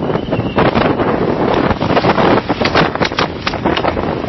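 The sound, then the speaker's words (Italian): Strong storm wind during a blizzard-like gale roars across the microphone in a loud, continuous rush, with gusts that swell and buffet throughout and no talking. “Ecco, siamo praticamente in mezzo a una vera e propria bufera. È veramente pazzesco il tempo.”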